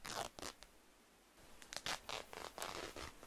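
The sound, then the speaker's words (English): A shirt is ripped off, producing faint, rasping fabric tears in a few quick bursts. After a short pause, a longer run of scratchy ripping follows. “We can just rip your shirt off. No, seriously, I said rip it off.”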